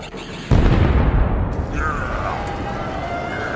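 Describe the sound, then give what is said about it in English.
Missiles firing and exploding in a battle: a sudden loud blast bursts in after a brief lead-in and rolls into a sustained heavy roar, with a thin whining tone sweeping through the later part. “As Commander Ackbar leads his men to the battle, he awaits until the perfect moment to fire all missiles. Fire!”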